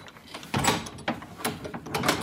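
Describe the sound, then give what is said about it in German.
A thick oak door opens into an old forge with a few heavy mechanical clunks and rattling scrapes, moderately loud against a hissy background. “öffnet die dicke Eichentür zur alten Schmiede”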